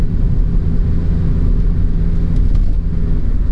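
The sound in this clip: A car driving along a road, heard as a steady, loud low rumble and engine hum that stays level throughout, with no voices.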